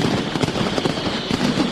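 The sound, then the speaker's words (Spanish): Mascletà firecrackers set off by Pirotecnia Turís during Les Fogueres in Alicante: a loud, unbroken barrage of rapid cracks and bangs that merge into one dense, roaring crackle. “Este es el sonido de la segunda mascletà oficial de las fiestas a cargo de Pirotecnia Turís, que acaba de terminar.”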